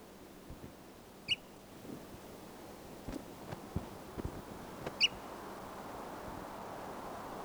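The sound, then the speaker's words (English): Faint calls from a newly captured bird at Long Park in the Chiricahuas. Two short, high, squeaky notes sound a few seconds apart, with soft scattered taps and clicks in between. “I'm trying to tape record the new birds captured today”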